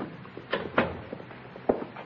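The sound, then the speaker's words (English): A door opens into a hotel suite with a few soft thumps and clicks over a low, steady hiss. “He's coming back, boss. He's opening the door.”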